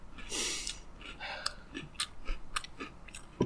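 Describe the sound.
Crunchy chewing of generic Trix fruit cereal. Crisp bites and mouth sounds come in an uneven rhythm, soft and close, with several sharper crunches standing out, and no talking.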